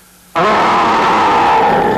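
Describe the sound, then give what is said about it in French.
A voice imitates a fierce bear growl: a loud, rough, throaty roar that bursts in abruptly and holds steady with a gravelly, strained tone, heard alone with no other talk. “Et fais un terrible grognement d'ours.”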